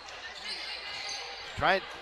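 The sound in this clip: A basketball bounces on the court during a women's game: a single clear thud rises over a steady crowd murmur, with voices faintly present.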